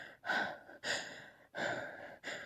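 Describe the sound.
A woman gasps four times in a steady rhythm. Each gasp is a sharp, breathy inhalation with brief pauses between them, with no other sounds.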